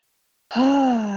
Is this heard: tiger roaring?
no